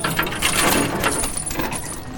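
A door swings open with metallic jangling and a few sharp latch clicks, a short, busy rattle of hardware.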